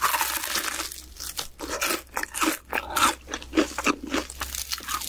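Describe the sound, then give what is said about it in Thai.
Someone eating crunchy food: many crisp, irregular crunches and crackly chewing bites follow one another steadily, fairly close and distinct, with no talking. “I really love that sound that sounds yummy but I can't have any I'm on a diet But yeah, for sure that someone's eating either”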